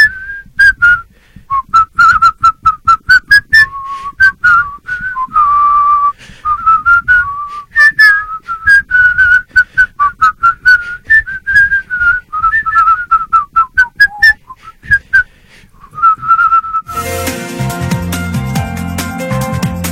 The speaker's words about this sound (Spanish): yo les quiero pedir que nos vayamos al corte, pero silbando la marcha de Zacatecas.